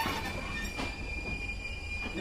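A train runs on rails, a freight train of cattle wagons, giving a steady, loud rolling rumble with thin, high wheel-squeal tones held above it throughout.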